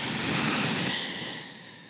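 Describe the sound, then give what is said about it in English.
A long, full exhale during a guided stretching session: a steady, breathy hiss that gradually fades over about two seconds. “Breath in and breath all the way out.”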